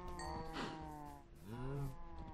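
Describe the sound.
Cows mooing in a video game on a farm, with a couple of low, drawn-out moos whose pitch bends upward, heard over a steady soft harmonic background.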